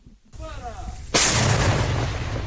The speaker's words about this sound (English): A Ukrainian T-64 Soviet-made tank fires while camouflaged in trees.